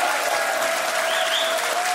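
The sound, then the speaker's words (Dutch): Audience applause: a dense, continuous wash of clapping that holds at an even, fairly loud level throughout, with no individual claps standing out. “Geef ze een applaus.”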